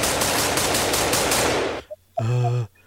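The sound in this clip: Rapid machine gun fire rattles out in a loud, unbroken stream of shots, then stops abruptly; a short humming tone follows in the quiet.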